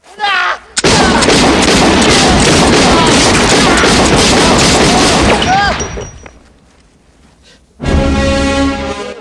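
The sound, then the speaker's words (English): Two large silver pistols fire at a concrete block, blasting it to rubble in a dense, continuous roar of gunfire lasting several seconds. The roar fades to a low rumble, then another loud burst erupts near the end. “The prisoner looks down to see the concrete block on his feet now shot to rubble.”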